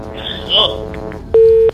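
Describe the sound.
A telephone call to a radio call-in show cuts off: a short crackly burst of line noise, then a single steady mid-pitched busy-tone beep lasting about a third of a second.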